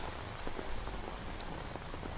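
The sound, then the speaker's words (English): Rain falls steadily, a faint, even hiss of drops striking a surface with scattered soft patters and no pauses throughout. “It's like the weather. It's like this damn rain.”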